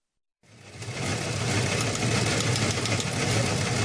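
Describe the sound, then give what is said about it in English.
An old news wire machine runs with a steady mechanical clatter and hum, starting abruptly after a moment of silence and continuing evenly at a moderate level. “Well, there's the sound of the old wire machine, and that means it is time to go beyond the headlines with our news director”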